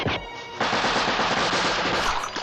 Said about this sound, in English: I love how blonde guy shoots him in the face about 10 times.